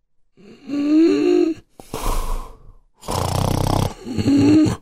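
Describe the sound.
Loud snoring from a sleeping person, a few long, rasping breaths separated by brief pauses, each with a throaty, rattling tone heard alone without talk.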